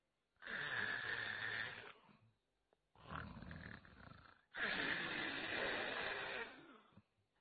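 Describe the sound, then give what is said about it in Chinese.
A voice imitates a man's loud snoring: three long, rasping, throaty snores, each lasting over a second, separated by short pauses, with the last one the longest. “程爷这觉来得快，脑袋一挨枕头这就打呼噜。程咬金这呼噜打得开绝，声如海潮，”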